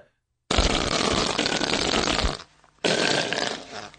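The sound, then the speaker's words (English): A whoopee cushion lets out a loud, raspy fart noise in two long, buzzing blasts separated by a brief gap. “Was that a fart? Well, if it was, it's ill. Oh, a whoopee cushion. A bad one.”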